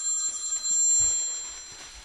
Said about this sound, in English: Oh no. The dreaded phone call.